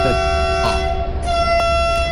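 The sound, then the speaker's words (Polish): Vehicle horns blare in a transport simulator video game: a steady, sustained horn tone that shifts pitch partway through, over a constant low engine rumble. “Ale tu chyba też mamy kilka klaksonów, więc sobie nacisnę spację.”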